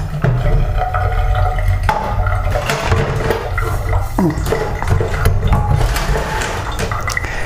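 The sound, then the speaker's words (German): Running water rinsing a lid: a steady, loud rush of water that continues throughout, broken by a few brief knocks and clatters as the lid is handled. “Den Deckel noch abspülen.”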